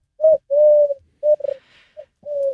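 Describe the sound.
Dove cooing, identified as a wood pigeon: soft, low hooting notes in an uneven rhythm, some short and some drawn out, with clear gaps of quiet between them.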